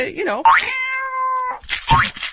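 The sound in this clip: A cat meows while being given Botox injections, with one long, sustained, tonal meow in the middle, framed by shorter, rougher vocal cries before and after.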